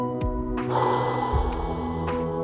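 Breath forcefully exhaled during a breathwork exercise, a short, breathy rush of air heard alone without talk.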